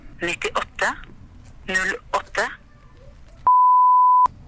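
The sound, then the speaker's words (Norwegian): A telephone tone while a number is being dialled: a single steady, mid-pitched electronic beep lasting just under a second, heard alone right after a stretch of people talking. “vi tar først det nummeret som står i de papirene vi fikk fra Visnode”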